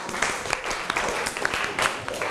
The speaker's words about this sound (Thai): ปรบมือให้เพื่อนหน่อย